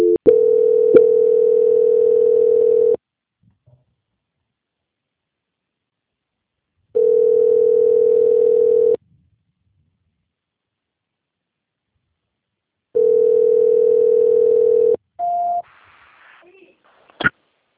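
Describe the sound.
Telephone line tone during a call transfer: three long, steady, low buzzing tones of about two to three seconds each, separated by long silences. A short higher beep and faint noise follow.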